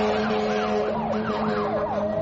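A fire engine siren wails, its tone sweeping rapidly up and down in a repeated warble over a steady low hum, loud and continuous throughout.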